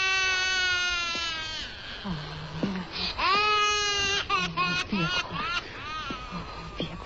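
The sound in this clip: A young child crying, with wailing, sobbing bursts that rise and break, shaky and high-pitched, continuing through with short catches of breath between cries.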